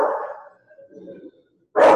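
A dog barks, with a short sharp bark, a brief lull with faint lower sounds, and then another loud bark.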